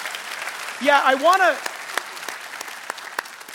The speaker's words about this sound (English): I would have loved to have clapped even louder and longer